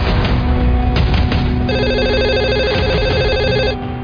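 A telephone rings with a loud, steady electronic trill that repeats in an even pattern and continues throughout.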